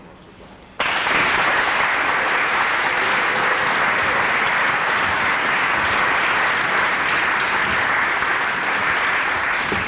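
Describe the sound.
Audience applause welcoming a speaker, bursting in suddenly after a quiet moment, then holding as dense, even, sustained clapping to the end.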